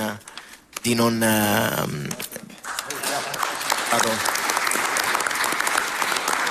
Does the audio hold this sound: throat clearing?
no